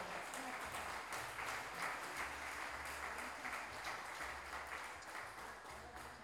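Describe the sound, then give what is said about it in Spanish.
Sustained applause from an audience at an intercultural gathering of living languages in Salta: a dense, steady clatter of many hands that holds at an even, fairly loud level from start to finish. “Así que, gracias a todos. Un fuerte aplauso. Un fuerte aplauso.”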